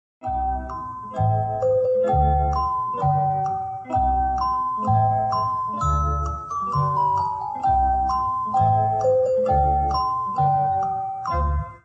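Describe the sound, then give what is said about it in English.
A doorbell plays a melodic chiming tune that repeats several times over steady low thumps, loud and continuous throughout. “Sorry about the doorbell.”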